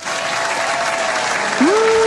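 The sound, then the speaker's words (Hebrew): Loud applause from an audience of actors, rewarding a good answer. The clapping is dense and sustained throughout, and a steady held tone joins in near the end. “איזה סאונד יפה זה כפיים.”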